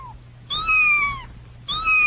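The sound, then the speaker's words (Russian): An ordinary street cat in Samara meows twice, each cry drawn out and wavering. The second meow is cut off at the end, and a faint low hum runs underneath. “Это обыкновенно-необыкновенный самарский кот, которого хозяйка зовет Мурзик, а продавцы из ближайшего мясного магазина называют Сосискиным.”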